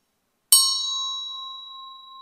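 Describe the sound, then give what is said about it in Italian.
A single bell struck once, giving a bright metallic ding that settles into a long, steady ringing tone and slowly fades, heard alone. “Che cos'è questo oggetto? È una campana, giusto?”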